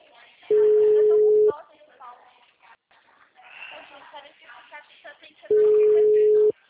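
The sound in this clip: Telephone line tones on a call: two long, steady, mid-pitched beeps, each about a second long, separated by several seconds of people talking.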